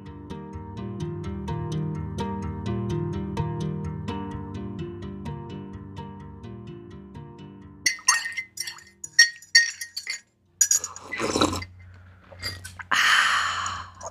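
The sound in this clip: A fly repeatedly bumping against a window pane: several sharp, glassy taps and clinks in an irregular rhythm, coming after a stretch of steady tonal music.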